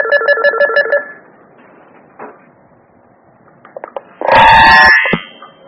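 A telephone rings for an incoming call: a rapid electronic trill of pulsed tones lasting about a second. After a pause comes a louder, noisier burst carrying a steady tone.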